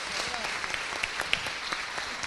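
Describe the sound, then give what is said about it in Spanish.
Audience applause for someone being honored on stage: dense, steady clapping with scattered sharper claps, sustained at an even level for about two seconds. “Vamos a pedir un aplauso para Nacho Abad”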